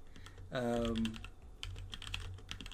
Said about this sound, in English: Hold on a second. Let me actually type this out.